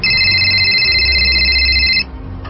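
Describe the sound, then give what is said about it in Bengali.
A telephone rings indoors in one loud, steady electronic tone that holds for about two seconds and then cuts off, leaving quiet room hum. “এই যে তোমার Lamia phone করেছে”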